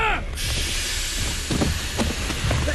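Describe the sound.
A steam locomotive comes to a stop, giving off a loud continuous hiss of steam over a low rumble, with brief high squealing tones at the very start.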